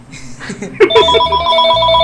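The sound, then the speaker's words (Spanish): A telephone rings with a steady, bright electronic trill that starts partway in and continues to the end. Brief talk is heard just before the ring begins. “Ahora le está sonando un teléfono.”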